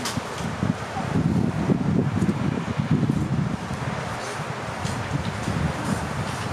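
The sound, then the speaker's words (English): Wind blows across an outdoor microphone, a steady low rumbling buffet with irregular gusts that carries on throughout at a fairly even loudness. “Sorry, the wind's giving me a little issues here.”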